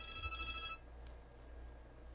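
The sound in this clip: A cell phone rings from a forwarded line: a short burst of bright electronic ringtone lasting under a second, then only low, steady hiss.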